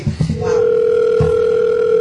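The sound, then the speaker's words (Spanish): A telephone dial tone sounds as a call is placed: a steady, unbroken mid-pitched hum that starts after a brief soft noise and holds to the end. “Estoy llamando a Daniel Luciano”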